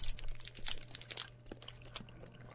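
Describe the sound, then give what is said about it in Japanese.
Plastic wrapping crinkles and tears as a wrapped yokan, a sweet bean jelly, is opened. Faint steady rustling carries a few sharper crackles, over a low, quiet hum. “普通の羊羹になっておりまして、ね、じゃあちょっと開けてみます。”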